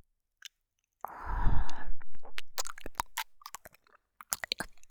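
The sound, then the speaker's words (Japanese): Wet ear-licking ASMR sounds: a dense burst of slurping and smacking, followed by many short, crisp wet clicks and pops of varying loudness, with no talking. “耳なめから始めたらいい雰囲気になるんじゃない？”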